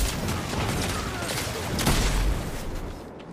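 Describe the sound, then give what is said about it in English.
A grenade explodes in a video game firefight. A dull, low boom swells briefly in the middle of continuous crackling gunfire-like noise. “Grenade.”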